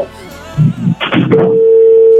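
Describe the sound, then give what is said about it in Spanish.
A telephone line tone: a single steady, clear pitched hum starts after some brief talk and a short burst of noise, then holds unchanged and fairly loud to the end. “¿Me está sonando? Yo creo que no. Yo creo que no. Sonando. Es el teléfono.”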